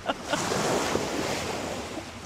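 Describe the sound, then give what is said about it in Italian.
Storm-driven sea waves roar and crash around a ship, a dense, steady wash of surf and wind with a couple of sharper splashing surges early on. “Il mare muglia tutto intorno. È una battaglia di schizzi.”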